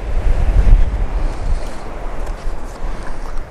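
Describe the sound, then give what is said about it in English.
Ocean waves breaking on a rocky shore on the Scottish coast, a broad steady rush of surf mixed with wind buffeting the microphone, loudest early on and then easing slightly without fully fading. “I'm just going to wait for some nice waves now.”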